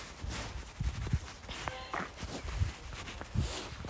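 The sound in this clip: Footsteps during a walk outdoors, a few soft, low thuds landing at an uneven pace, faint against a quiet background hiss.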